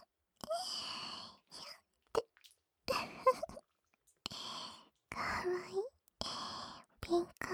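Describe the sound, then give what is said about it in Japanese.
Soft, breathy puffs blown gently into the ear in an intimate whispered style: a series of quiet airy gusts separated by short pauses, with faint whispered vocal sounds between some of them. “お耳ふうふうも好きなんでちゅね。”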